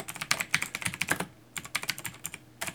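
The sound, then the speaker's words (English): Clacky typing on a computer keyboard: many quick keystrokes in rapid bursts, with a short pause midway before the tapping resumes. “you're gonna hear a lot of clacky clacky typing on my keyboard here today.”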